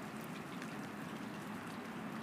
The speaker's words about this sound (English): And the rain is dripping into the river water and making ripples on the surface.